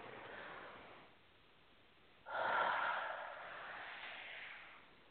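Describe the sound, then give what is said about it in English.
A deep breath drawn slowly: a soft airy hiss at first, then a louder, sustained breathy rush that gradually tapers off, with no talking. “Take a nice deep breath.”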